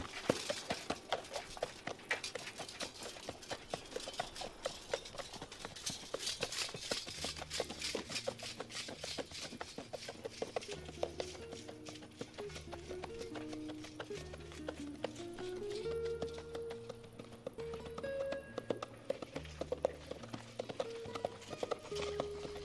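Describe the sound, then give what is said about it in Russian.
A horse gallops across a grassy valley, its hooves clip-clopping in a quick, steady rhythm throughout, mixed with music that carries a repeating low pattern and a melody. “Переведя лошадь на галоп, пересекает долину.”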